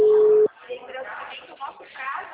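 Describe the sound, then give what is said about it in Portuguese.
A steady telephone busy tone from a dropped phone call holds for about half a second, cuts off abruptly, and is followed by a voice talking. “Oi, a ligação caiu de novo, tá ruim a ligação, né?”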